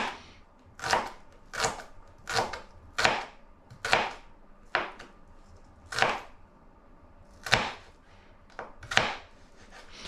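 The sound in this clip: A knife slicing a red onion into thin slices: a series of sharp, separate cuts at an uneven, unhurried pace, each a bright crisp snap, alone without talk.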